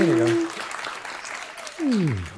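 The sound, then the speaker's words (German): Audience applause at a live show, a steady wash of clapping heard throughout, with a voice speaking briefly over it at the start and again near the end. “Euer Applaus. Ja, ein bisschen weniger.”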